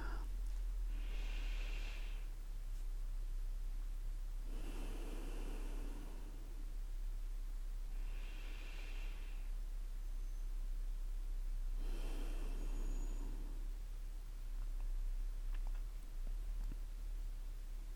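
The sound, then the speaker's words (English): Slow, deep breaths taken during a guided kundalini meditation come as a few long, soft whooshes of breathy noise, spaced several seconds apart over a steady faint hiss, with no talking. “So let's take a couple of deep breaths.”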